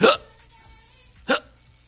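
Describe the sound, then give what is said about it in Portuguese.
A voice imitates a drunk old man's hiccups after a night of drinking: two short, sharp hiccup sounds about a second apart, fairly loud and with no talk around them. “e soluço pra cá e pra lá”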